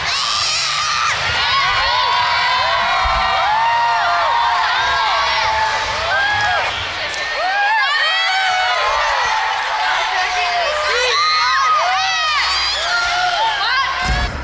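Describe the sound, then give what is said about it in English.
Children shout and cheer at a library reading kick-off, a loud and continuous crowd of high-pitched whoops and overlapping yells, with a few brief dips before the noise swells again. “this is what it sounds like when kids are getting ready for a reader kick-off.”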